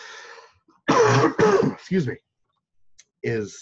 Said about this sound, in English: I should cough from my elbow, I apologize